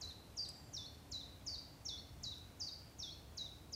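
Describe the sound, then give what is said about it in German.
Common chiffchaff song: a faint, steady series of about ten thin, high chirping notes, evenly spaced and repeated in a regular, metronomic rhythm over quiet background noise. “Das ist der Zilpzalp.”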